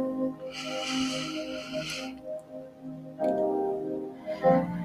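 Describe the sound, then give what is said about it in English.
A deep breath drawn in during a guided breathing exercise: a soft, airy inhale lasting about two seconds over steady tonal background music, followed later by further breathy sounds. “We're going to start off once again with our breathing exercise, and we'll get right into today's message of hope. Deep breath in.”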